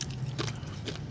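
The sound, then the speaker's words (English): Crunchy bites into tacos during a drunk taco mukbang give a couple of brief, crisp crackling bursts over a low background, faint and short. “You hear us fucking all the crunch, huh? The crunch.”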